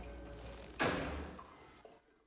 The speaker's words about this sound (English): The blonde runs into her bedroom, slamming the door on the masked figure just in time.